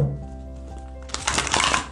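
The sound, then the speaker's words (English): Tarot cards are shuffled in a brief riffling, rustling burst that comes in the second half, over a soft, sustained tonal background. “one more shuffle.”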